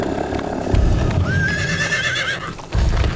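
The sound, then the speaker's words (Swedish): Horses are ridden along a river, with steady clip-clopping hoofbeats throughout and a horse's whinny rising over them midway. “För sista gången red vi längs med floden mot Karmanjaka.”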